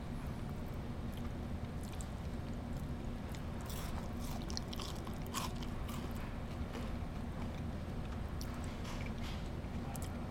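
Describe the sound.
Crisp biting and chewing of a pumpkin-flavoured Kit Kat, with scattered sharp crunches over a steady, noisy background and no talk.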